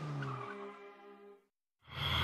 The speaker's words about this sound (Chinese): 汽车一阵风似的开走